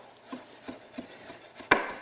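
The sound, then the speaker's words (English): A knife chops vegetables in a cooking scene: a run of evenly spaced, crisp knocks, about half a dozen in two seconds, with the last cut clearly the loudest and sharpest. “another storyline is you take a houseboy played by co-creator Tony Hernandez under your wing and teach him how to cook and chop vegetables.”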